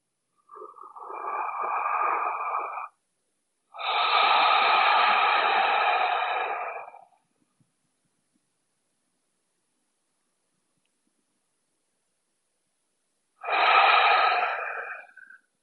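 Three long, deep breaths drawn through the nose to take in a scent from the hands and wrists, each a hissing airy rush lasting a few seconds, with a long silent pause before the last.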